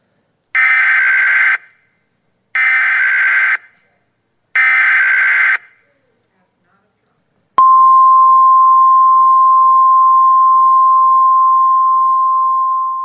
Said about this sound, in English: But it says this, it's a sound of what? The emergency broadcast system.